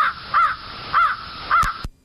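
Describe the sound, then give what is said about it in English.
Crow cawing, a few harsh, raspy caws spaced in a steady rhythm, loud and alone with no voices. “One more calling bird. Oh, oh gosh. Do you know that one? That's a crow.”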